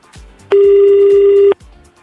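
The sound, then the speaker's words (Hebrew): A telephone tone during a call being dialed: a single loud, steady electronic tone about one second long, with faint, low, regularly repeated thumps before and after it. “אני מחייג”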